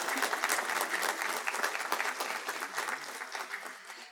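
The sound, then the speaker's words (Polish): An audience at a conference meeting applauds with dense, lively clapping that holds steady, then gradually thins and softens toward the end. “Brawa.”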